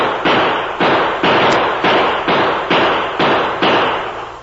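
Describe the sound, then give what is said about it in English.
Gunshots ring out as a masked man fires from a rock ledge atop a butte at someone below: a steady run of about nine sharp, evenly spaced cracks, each decaying quickly before the next. “The masked man was only a few feet away, firing at something or someone below him.”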